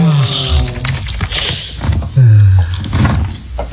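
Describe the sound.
Padlock being fastened on a door: a quick series of sharp metallic clicks, clanks and rattles of the lock and latch, fairly loud and irregular in rhythm.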